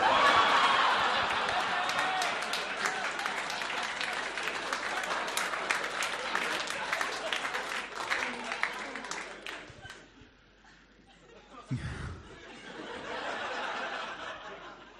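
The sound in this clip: Audience applause at a comedy show, a dense sustained clapping with some laughter that slowly fades out, followed by a brief bump and a voice speaking.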